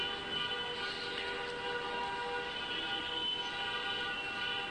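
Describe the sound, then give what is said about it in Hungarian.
Car horns honking from a large wedding procession: sustained, overlapping horn tones blare steadily without a break throughout. “Na, itt is mennyegzői, direkt illusztráció ahhoz, amiről beszélünk, boldog mennyegzői tülkölés. Jó nagy násznép van, elég sokáig tülkölnek.”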